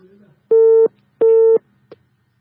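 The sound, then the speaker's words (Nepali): A telephone busy tone after the caller hung up: two loud, steady, mid-pitched beeps of equal length with a short gap between, followed by a faint click. “कोही साथी call लाइनमा आइसक्नु भएको छ, उहाँले call line काटेर गइसक्नु भएको छ।”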